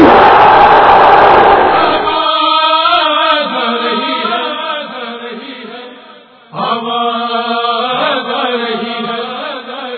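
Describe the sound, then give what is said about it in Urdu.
A crowd at a religious gathering shouts its response to the Naara-e Haidari slogan honouring Mola Ali, opening with a loud massed roar that gives way to sustained chanted voices. “اتنی پوری طاقت سے مولا علی کا اس نعرے کا جواب دینا ہے جس نعرے کو لگا کر ہم جنگوں کو جیت لیتے ہیں. نعرے حیدری,”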